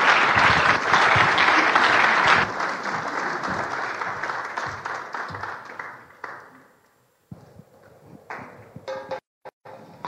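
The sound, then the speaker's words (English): A church audience applauds to welcome a pastor at a morning service. Loud, dense clapping holds for several seconds, then fades away, leaving a few scattered knocks and small sounds. “Let's put our hands together. Welcome Pastor Nikki this morning.”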